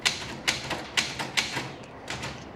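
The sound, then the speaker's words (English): Keys striking on a typewriter as words are typed onto a sheet of paper: a series of sharp, crisp clacks at an uneven pace, fairly quiet and with nothing else around them. “Words are typed onto a sheet of paper.”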